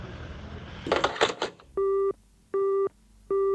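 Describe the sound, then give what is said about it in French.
Telephone answering machine tones: three evenly spaced, steady electronic beeps, each about a third of a second long and fairly loud, following a brief scratchy burst of noise. “Salut le répondeur de Radio Parleur.”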